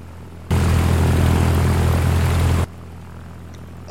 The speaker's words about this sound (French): j'attends l'autorisation de la tour de contrôle. Ça y est, on décolle.